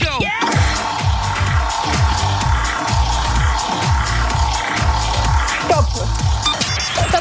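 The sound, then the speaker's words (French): Clicking of a big prize wheel spun during a radio game show, a long run of many quick, even ticks over a steady low backing sound, loud and continuous. “on la lance ensemble cette grande roue oui. Vous me dites stop quand vous souhaitez qu'on l'arrête et bim, un cadeau qui tombe.”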